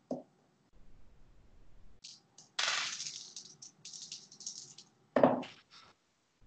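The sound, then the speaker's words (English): Dice clattering as a D100 is rolled, a few rattling, clicking bursts separated by short pauses, loudest midway and again near the end, with no talking. “Or you can go to roll a die and do a D100 or D50.”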